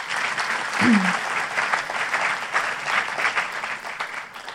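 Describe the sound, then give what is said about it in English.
Audience applause at an evening historical society program: a steady, dense patter of many hands clapping that holds at an even loudness throughout. “Let's give them all a big hand.”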